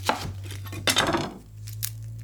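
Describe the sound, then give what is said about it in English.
A knife thinly slices half an onion, giving a few crisp cutting clicks over a low, steady hum. “And these you do want to thinly slice. Just 1/2 onion.”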